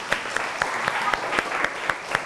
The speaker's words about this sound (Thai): โอเคเก่งมากปรบมือเพื่อนลูก